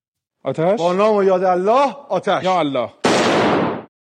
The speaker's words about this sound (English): An Iranian TV host has fired a gun during a live broadcast.